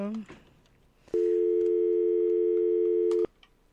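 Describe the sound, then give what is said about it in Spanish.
An incoming call on a phone line sounds as one steady, sustained beep lasting about two seconds, preceded by a few brief clicks and a short tone. “y tenemos otra llamada. Otra llamada.”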